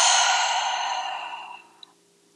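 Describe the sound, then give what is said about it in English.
A long, deep breath blown out through the mouth during a guided breathing exercise: a soft, airy rush that starts strong and gradually fades away over about a second and a half, ending with a faint tiny click. “take some deep breaths in through the nose and out through the mouth.”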